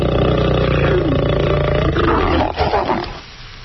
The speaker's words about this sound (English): What is that? Lion.